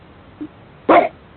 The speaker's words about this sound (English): Does someone have a dog barking in the background?